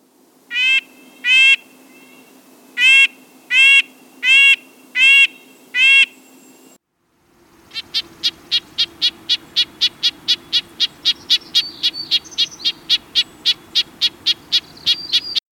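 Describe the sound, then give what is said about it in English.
A red-breasted nuthatch calling: several separate nasal, tinny notes spaced out at first, then after a short pause a long, quick, even run of many similar notes. “This is, as you know, a bird, a very small, tidy bird, the red-breasted nuthatch.”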